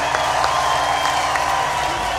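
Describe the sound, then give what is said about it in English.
Audience applause with a little cheering mixed in, continuous dense clapping at a steady, fairly loud level with no pauses. “Give yourself a big round of applause, man.”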